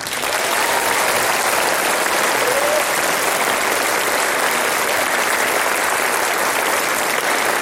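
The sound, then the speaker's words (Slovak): Sustained applause from the audience at a live event: a dense, even wash of many hands clapping, holding a steady loudness from start to finish with no pauses and no voices standing out above it. “Tento potlesk, ktorý teraz zaznie, poputuje všetkým našim divákom v školách na celom Slovensku.”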